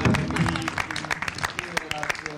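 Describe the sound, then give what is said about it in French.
Auction audience clapping for a buyer after a lot sells for 50 euros. Scattered sharp claps continue while a voice talks over them. “50 euros, trois fois, on peut l'applaudir, il fait une affaire,”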